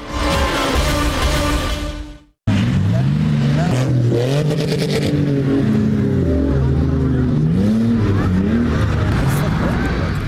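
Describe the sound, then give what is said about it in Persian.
SUVs racing across the sand dunes of Kandahar rev their engines loudly and continuously. The engine pitch sweeps up and down again and again as they accelerate and ease off. “موترهای شاسی بلند به سرعت تپه های ریگی کندهار را می پیمایند.”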